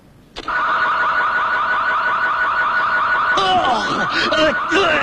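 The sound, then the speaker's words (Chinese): A car alarm starts abruptly and holds a loud, steady electronic tone, with rougher clattering noise joining near the end. “我这种车子的报警信号是很灵敏的。”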